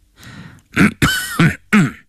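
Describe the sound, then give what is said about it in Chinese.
A man's harsh cough and throat-clearing during a tense confrontation before an official in an old Chinese courtroom scene. It comes as a few rough, throaty bursts close together, with no talk around them. “邓廷真咳嗽了一声”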